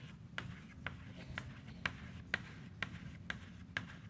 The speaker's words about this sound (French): je ne vais pas dessiner les atomes ici, je vais dessiner...